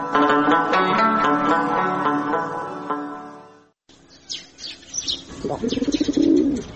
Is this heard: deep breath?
no